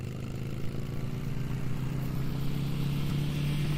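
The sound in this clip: Motorcycle engine in a highway racing video game, a steady mid-pitched drone that holds an even tone at constant loudness throughout, with no voices.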